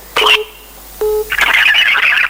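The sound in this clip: Electronic telephone tones as a call is picked up: two short, clean beeps separated by a pause, followed by a longer stretch of crackly, hissing line noise.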